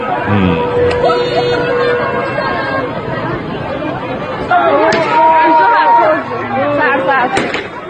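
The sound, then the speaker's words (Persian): Gunshots fired into the air at a street protest: a few sharp bangs cut through loud, continuous crowd shouting and chatter. “این تیر هوایی بود”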